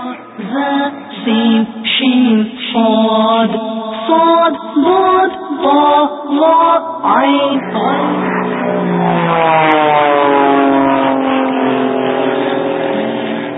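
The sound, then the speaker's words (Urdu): An approaching airplane in a children's alphabet lesson: after several seconds of rhythmic voices, a steady, harmonic engine drone swells in and rises slightly in pitch, holding loud to the end. “یہ ایک اور جہاز آ رہا ہے”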